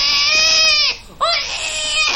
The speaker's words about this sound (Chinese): 舒霞，孩子饿了。啊，不哭。